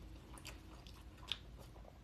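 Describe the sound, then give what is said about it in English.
Someone chews jackfruit with faint, soft, repeated wet bites and one sharper crunch partway through, with no talking. “What you eating? I'm eating jackfruit.”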